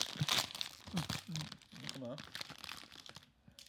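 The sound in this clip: Plastic wrapper crinkling and tearing as a packet of Indonesian Ginger Bon ginger candies is opened, a steady crackle running under a person talking.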